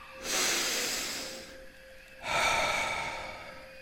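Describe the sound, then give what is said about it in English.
Two slow, deep breaths, each a long airy hiss that swells quickly and then fades, heard alone over a faint steady tone in the background. “Start by taking a few deep breaths.”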